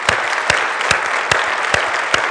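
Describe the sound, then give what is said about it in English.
Applause from a conference audience, many hands clapping at once in a dense, even wash. A few sharper individual claps stand out, and no voices are heard. “So I just want to really give a round of applause, one more, to everyone who's been involved in this event. One more time, please.”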